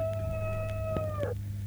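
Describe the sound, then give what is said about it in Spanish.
A telephone ringtone made to sound like a rooster crowing: one long, sustained, tonal crow that drops in pitch at its end, over a steady low hum. “¿Qué teléfono más raro? ¿Qué timbre? ¿Le han cambiado el timbre, Miguel? Ya, un timbre gallo.”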